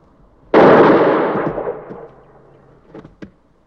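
A single gunshot in a film scene: a loud, sharp blast with a long rumbling decay lasting over a second, followed by a couple of faint clicks.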